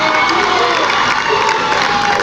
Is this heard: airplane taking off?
no